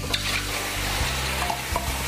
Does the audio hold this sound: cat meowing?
no